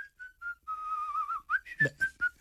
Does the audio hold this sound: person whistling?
yes